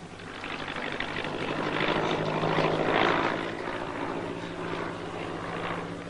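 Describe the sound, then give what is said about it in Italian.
An aircraft that appears to be German drones overhead with a broad, rough propeller rumble. It swells to a peak midway, then eases slightly and holds steady. “Là, un aereo. Sembra tedesco.”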